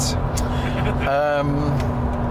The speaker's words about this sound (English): Terrible gearbox in this car. Absolutely awful gearbox.